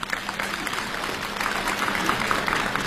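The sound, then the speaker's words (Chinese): Audience applause for a crosstalk comedy act: dense, steady clapping from a crowd that continues throughout. “感谢朋友们的掌声。”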